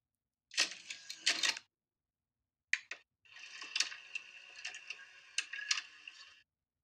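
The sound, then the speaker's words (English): A VHS tape slides into a player with clattering plastic clicks, a short pause, a sharp click, and then a longer stretch of whirring, rattling mechanism noise. “VHS tape. Yeah. Really? Yeah. That's what that was. A bit of a shock to her. But, okay. I was gonna say cassette, so that's wow, that's wild. Yeah, inserting a VHS tape.”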